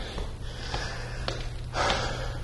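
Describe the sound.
Heavy, breathy panting of someone out of breath after climbing four flights of steps, a few sharper breaths and sniffs rising from a constant low hum.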